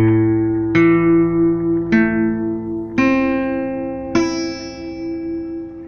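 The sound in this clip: Acoustic guitar strings plucked one at a time from the A string up to the high E, five clean single notes rising in pitch at a slow, even pace, each left ringing and fading into the next.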